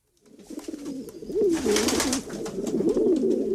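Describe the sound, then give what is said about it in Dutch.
Pigeons cooing in a steady stream of soft, throaty, rolling coos that overlap and swell, loud and continuous with no voices. “Dit vind ik zo'n leuk geluid. Ja, ik ben gek op duiven.”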